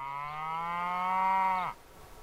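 A single long moo from cattle in Washington wolf country holds a steady low pitch, swells slightly, then drops sharply and cuts off, leaving quiet.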